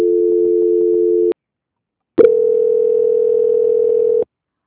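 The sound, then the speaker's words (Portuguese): Telephone tones sound during a call transfer: two steady, even-pitched tone bursts, a short one followed by a pause and then a longer one, with no talk over them. “Vamos ver se agora vai. Transferência.”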